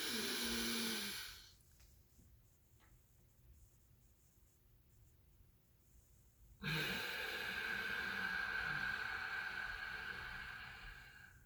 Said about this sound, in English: What I'm going to do is just do that right now so you kind of hear, if you can hear it or see me, what it looks like. So it'd be breathe in.